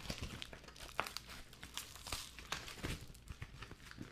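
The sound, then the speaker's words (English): Crinkling and tearing as shears cut through packaging wrapped in a heavy layer of tape: many quick, irregular crackles and rips with no pause, fairly quiet throughout. “The vape shears are probably going to work better than this knife. Yep, of course. Vape shears. Go, vape shears, go.”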